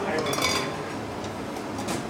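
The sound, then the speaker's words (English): Shallow copper bowls clink as individual servings of meat and rice are assembled: a few light metallic clinks, mostly early, over a steady busy kitchen noise. “Next to him is a stack of shallow copper bowls, which he uses to assemble each individual serving.”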